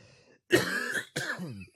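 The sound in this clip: A cough from something caught in the throat: two harsh, rasping bursts of throat-clearing, the first longer and louder, the second following after a brief gap, with no talk over them.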